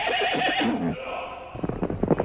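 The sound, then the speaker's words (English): Polish Arabian horses at the famous horse auctions in Janów: one long, wavering whinny rings out, then fades into a brief lull before a run of quick, uneven knocks like hooves on the ground. “I'm surrounded by one of Poland's most favourite animals, horses.”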